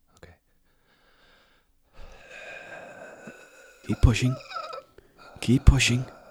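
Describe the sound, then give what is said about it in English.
A person pushes all the air out of the lungs during a guided breathing exercise: a long, breathy, moderate exhale, followed by two louder, voiced breathy bursts. “Now, I want you to push out all the air that's in your lungs down to the diaphragm.”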